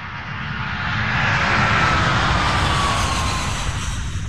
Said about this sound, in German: Nachdenklich sitze ich im Flugzeug von Dhaka auf dem Weg zurück nach Deutschland.